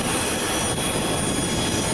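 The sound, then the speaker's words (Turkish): Jet engine roar from an airplane carrying search-and-rescue and humanitarian aid teams as it departs Istanbul Atatürk Airport for Venezuela: a dense, steady, unbroken roar with no voices. “Depremzedelere destek olmak amacıyla hazırlanan arama kurtarma ve insani yardım ekiplerini taşıyan uçak İstanbul Atatürk Havalimanı'ndan Venezuela'ya uğurlandı.”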